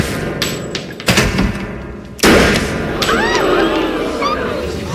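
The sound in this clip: Gunshots ring out at a shooting range in a TV show scene: a few sharp, loud cracks, the strongest near the middle, with people talking afterward.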